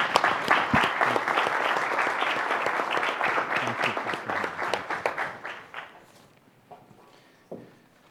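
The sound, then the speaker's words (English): Audience applause welcoming a speaker to the stage at an event: dense, loud clapping for about six seconds that then dies away to a few scattered claps. “So would you, with your applause, please welcome and thank Ahmed for being with us today.”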